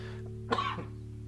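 A single harsh cough from a person with a cold, one short burst over a steady low hum, with no talk around it.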